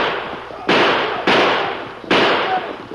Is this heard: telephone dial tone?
no

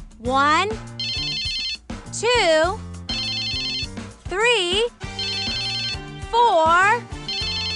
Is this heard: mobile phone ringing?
yes

